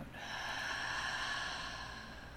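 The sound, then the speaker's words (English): A person drawing a slow, deep breath as a calming exercise: one sustained, airy, hissing rush of air that holds steady and then eases off slightly. “So take a nice deep breath in and out.”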